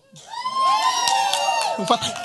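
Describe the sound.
Audience cheering and whooping erupts in a loud, sustained burst of shouting voices that holds for about two seconds before tapering off.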